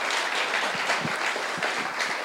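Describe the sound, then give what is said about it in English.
Audience applause at a bilingual English-Spanish talk, a dense, steady wash of many hands clapping that holds at an even, fairly loud level throughout, with no voices. “Now you can all clap.”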